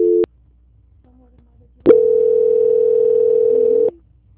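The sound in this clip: Telephone line tones sound during a call transfer: a short steady beep, a brief pause, then a long, even tone lasting about two seconds that cuts off abruptly.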